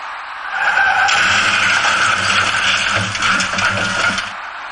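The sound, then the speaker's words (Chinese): A small passenger car driving at night on a wide road, heard as a continuous broad rushing roar of tyres and wind over a low engine rumble, steady and fairly loud throughout. “就在此时，一辆小客车自北向南开了过来，您注意看这辆车的行驶轨迹。”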